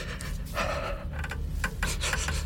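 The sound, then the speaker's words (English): Rapid, ragged panting from someone short of breath after learning he faces a long prison term, a continuous run of rough, breathy inhales and exhales with no talk. “Shortness of breath, that's standard.”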